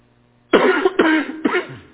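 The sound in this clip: Three harsh coughs from a man with a tickle in his throat, coming in quick succession, each a rough burst with no talk between them.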